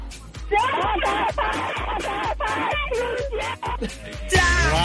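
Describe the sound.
Several people shout a phrase together at full force after winning a game, a loud burst of overlapping voices that stays strong for several seconds.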